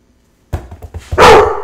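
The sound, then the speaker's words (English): An excited dog barks alone: a few short, sharp yips, then a louder, longer bark that trails off. “Wendy got all excited, the dog.”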